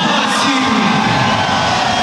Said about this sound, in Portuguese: Vamos lá, para o Wallace, número 82. Esse aí vai ser bem aplaudido, hein?